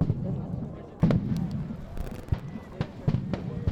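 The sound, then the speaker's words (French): Stun grenades exploding at a protest around a large water reservoir: several sharp, abrupt bangs at irregular intervals over a restless background of crowd voices and rumble. “il y a des panaches de fumée, des grenades assourdissantes se remettent à exploser.”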